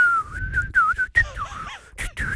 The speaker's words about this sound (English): Let's go and whistle now